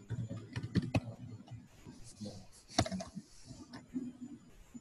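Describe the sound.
Computer keyboard typing as someone retypes a question, quiet irregular key clicks arriving in short bursts with brief pauses between them.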